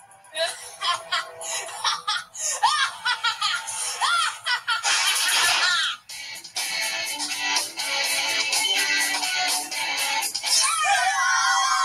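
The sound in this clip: Trolls squealing excitedly while hugging each other: many loud, high-pitched shrieks and giggles in quick bursts, with a short break near the middle before the squealing carries on.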